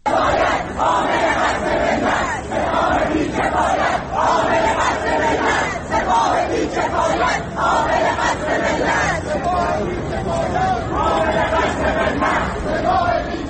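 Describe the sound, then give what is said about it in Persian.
Students chant slogans at universities in Tehran, a large crowd shouting repeated phrases in unison, loud and rhythmic with short regular pauses between chants. “به بخشی از صدای شعارهای دانشجویان در دانشگاه‌های تهران گوش می‌کنیم.”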